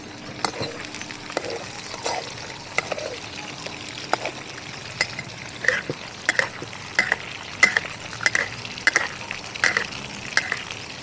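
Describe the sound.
Food frying in oil gives a continuous crackling sizzle with many small pops and bursts throughout. The crackling grows busier toward the end.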